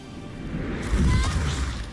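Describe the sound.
A lightning storm spell attack in a turn-based video game battle: a dense, noisy rumble with crackling texture that swells into a louder burst partway through and keeps roaring steadily to the end.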